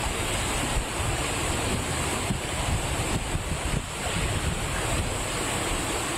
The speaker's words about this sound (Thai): น้ำเยอะอีกแล้วทีเดียวเลยอ่ะดูนี่ก็ออกมาแล้ว